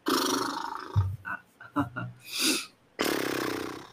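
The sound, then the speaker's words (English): A voiced lip flutter done as a breathing and voice-relaxation exercise: a buzzing, rolling trill held at a steady pitch in two sustained bursts, with shorter breathy sounds in between. “The second one is you can also do lip fluttering. Lip fluttering, F-L-U-T-T-E-R. It's like this. We take a breath in and then we do.”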